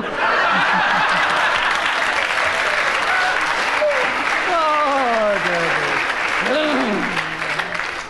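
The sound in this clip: Audience applause on a radio panel show, a dense, steady patter of clapping that holds loud throughout, with chuckles and laughter mixed in and a voice talking over it.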